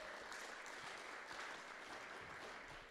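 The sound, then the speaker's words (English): A church audience claps to welcome a guest youth pastor, an even, continuous wash of many hands that stays faint throughout with no clear voices. “So let's give him a hand, welcome him in.”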